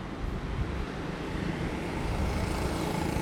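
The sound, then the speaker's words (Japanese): Car traffic noise forms a steady, broad roar throughout, with no distinct single vehicle standing out and no voices. “めっちゃ車の音入ってるでしょ、これやばいな。”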